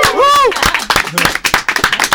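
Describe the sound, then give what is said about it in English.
A musical group applauds, giving uneven, fairly sparse claps. A voice rises over them at the start. “Big round of applause, please, for all of yourselves.”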